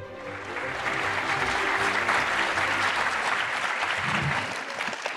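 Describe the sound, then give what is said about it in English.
Audience applause welcoming actor and opera director Christoph Waltz at an LA Opera event: dense, sustained clapping that swells quickly, holds steady for several seconds, then eases slightly toward the end. “Give a great big welcome and thanks to Christoph Waltz.”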